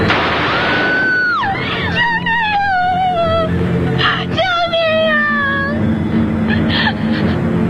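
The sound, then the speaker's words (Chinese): Wailing screams for help in a staged Chinese folk-art comic performance: a few high, drawn-out cries with sliding, falling pitch, fairly loud against a faint background. “听到没有，叫救命了”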